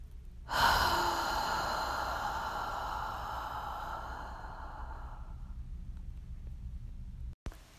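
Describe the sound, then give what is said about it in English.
A deep breath during a guided breathing exercise, heard as a single long, breathy rush of air that starts abruptly and fades slowly over several seconds, followed near the end by a sharp click. “deep breath in. And exhale.”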